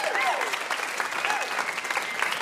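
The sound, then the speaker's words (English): Enthusiastic applause from a live audience for a guest at a quiz show taping, steady dense clapping with some cheering and a few high whoops rising above it, continuing throughout at an even level. “How about a huge round of applause for our VIP, Julie Klausner?”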